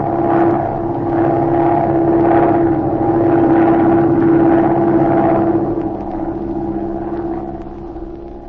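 Airplane engine droning steadily as the plane turns back toward the airport to land, a loud, even, low rumble with a sustained hum that eases slightly toward the end. No voices are heard.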